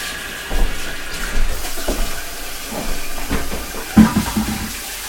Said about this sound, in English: First, I'm going to wash my hands again. Because it's covered in oil.